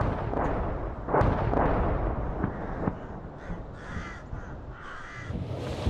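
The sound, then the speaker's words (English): Artillery shelling of a city near the front lines: a few heavy, booming thuds in the first half over a rough rumbling background, followed by crows cawing repeatedly. “The shelling is getting closer.”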